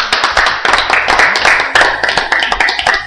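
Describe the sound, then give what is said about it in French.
Hand clapping from a church audience during a sermon: many sharp, loud claps in a steady, fast rhythm that continue throughout. “Applaudissons pour le Seigneur.”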